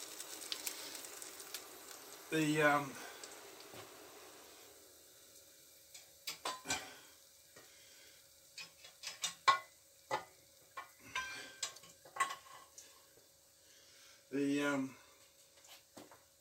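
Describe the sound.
Food cooks in a pan, with faint scattered clinks and scraping from stirring and a soft sizzle, interrupted by two louder rough bursts of noise.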